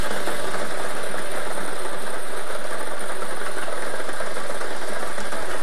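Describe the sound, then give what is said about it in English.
A lottery draw machine churns the numbered balls for a daily millions game, a loud, steady whirring rumble with dense rattling that holds constant throughout, with no voices. “Let's get these balls spinning so you can start winning.”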